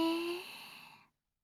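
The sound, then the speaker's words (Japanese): A slow, deep breath during a guided relaxation exercise, one soft, airy inhalation that fades away after about a second and leaves silence. “ゆっくりと深呼吸するよ。吸って”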